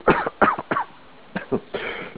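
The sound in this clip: Coughing over a narrow-band radio link: a few sharp, hoarse coughs in quick succession, a short pause, then more rasping coughs and throat-clearing toward the end.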